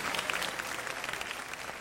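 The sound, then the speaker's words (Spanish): Applause from a classroom audience of students: a short burst of dense, steady clapping, fairly soft and even throughout. “Ahí me aplauden mucho, pero hay que hacerlo, ¿eh?”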